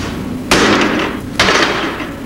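Two hard hammer blows land on a tough, freshly formed plastic car part. Each is a loud, sharp crack that rings on briefly, with no voices over them.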